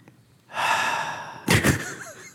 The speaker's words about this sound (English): That was really weird. Just breath over the microphone.